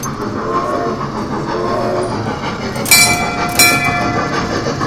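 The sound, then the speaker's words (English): Rumbling, clattering running sound of a small shopping centre train at Whiteley, a steady loud rattle throughout with two brief higher-pitched bursts in the second half. “Now, that is the sound of something that should be the size of the train from Back to the Future 3.”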